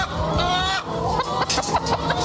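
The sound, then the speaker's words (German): Farm hens cluck and cackle continuously, several birds overlapping in busy, rising-and-falling calls at a farm where they are kept for laying eggs around Easter. “Für die Hühner von Landwirtin Gudrun Walker bedeutet Ostern vor allem eins: Eier legen, was das Zeug hält.”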